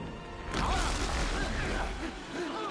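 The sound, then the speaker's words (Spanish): A heavy crash and rumbling roar as a rock fragment slams against the far side of a crumbling stone mass, starting abruptly and staying loud. “¡Ahora! Choca contra el otro lado donde están los demás. El fragmento cae al vacío.”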